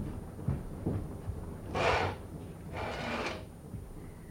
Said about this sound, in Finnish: Sulje ilmanvaihtoventtili. Yöilma on kolea, enkä siedä vetoa.